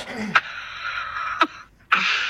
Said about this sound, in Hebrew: נו, מה אתה משתעל? התחלת להשתעל גם?